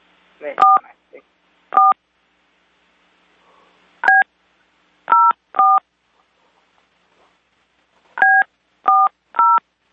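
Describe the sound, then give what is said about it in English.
Telephone keypad tones beep as a number is dialed, a series of short, clear touch-tone pulses in irregular clusters separated by brief pauses and near silence. “She's dialing...”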